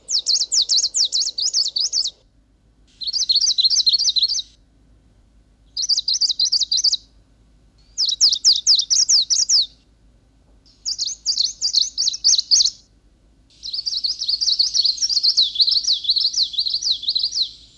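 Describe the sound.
Bird songs from different populations across Siberia and Central Asia play as six bursts of high, rapid trilling and chirping phrases separated by short pauses, loud and clear with no talk.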